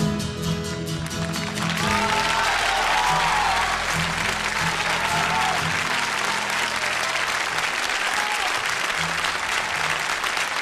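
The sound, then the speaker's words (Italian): Audience applause at a live event after a song, loud dense clapping that holds steady for the whole stretch without fading, with a few whistles or cheers mixed in. “Applausi, applausi. Sì, meritatissimi.”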